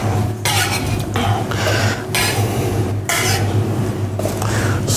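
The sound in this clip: A chef's knife slices a purple heirloom carrot into rounds, producing a steady series of crisp cutting strokes at regular intervals, with one brief spoken word.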